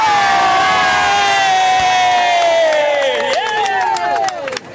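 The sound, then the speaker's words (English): Crowd cheering at a Radio Sheffield gathering in Langsett, South Yorkshire: a loud, sustained collective yell of many voices whose pitch slides gradually lower, breaking into scattered whoops and shouts near the end. “Come on, everybody, give me a cheer!”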